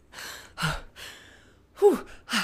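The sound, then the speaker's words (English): A man gasps and pants to catch his breath after running, with a few heavy, breathy inhales and exhales and sharp gasps. The loudest gasps come near the end, and no words are spoken. “He catches his breath as he says,”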